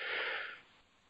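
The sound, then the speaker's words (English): A deep breath in, taken on a count at the start of a morning session: one soft, airy inhale that fades after about half a second, faint and alone. “let's just take the biggest, deepest breath of the day. One, two, three, breathe in.”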